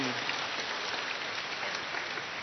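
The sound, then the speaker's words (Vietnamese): A round of applause thanking the parents at a Catholic Eucharistic youth ceremony, many hands clapping in a steady, even patter at a moderate level throughout. “Chúng ta cho một tràng pháo tay để cảm ơn các bậc phụ huynh của chúng ta.”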